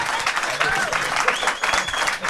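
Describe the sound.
Studio audience applause at a live public recording of the Blues Café radio show: a dense, steady wash of clapping that fills the whole clip, with a voice faintly heard over it.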